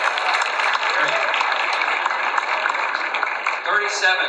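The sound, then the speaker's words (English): Audience applause at an awards show, a dense and steady wash of clapping that holds at an even loudness for the whole clip. “Come on, one time, everybody, a round of applause.”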